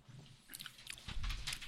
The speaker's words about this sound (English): It's dark chocolate. I'm gonna start calling you guys the chocolate connoisseurs. I like it. A little strong, but I mean, it's dark. It's supposed to be. Tastes like hot cocoa.